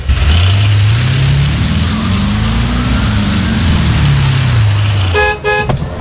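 Car horn of a newly bought car gives a couple of short toots near the end, over a loud, steady engine whose revs swell and ease throughout.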